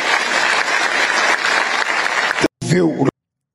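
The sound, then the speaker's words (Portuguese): An audience applauds in a dense, steady patter of clapping that stops abruptly, followed by a brief burst of speech. “Aí as pessoas começam a aplaudir”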